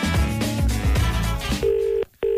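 A telephone dials a barbershop: a quick run of dialing tones, then a steady ringing tone, a brief silence, and the ring starting again.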